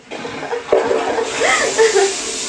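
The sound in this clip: An automatically triggered toilet flush, with rushing water and a broad hiss swelling partway through and continuing to the end, while a person talks over it.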